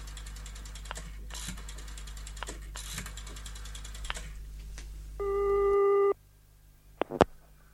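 A telephone ringing tone on an outgoing call sounds once as a steady, buzzy tone about a second long. Scattered mechanical clicks and rattles come before it, and a sharp click follows.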